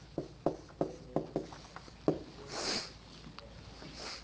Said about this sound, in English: Let's first write confession.